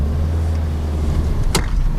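Steady low engine rumble of a car pulling away during a driving session with an instructor on board. The hum holds constant throughout, broken by one short sharp click partway through.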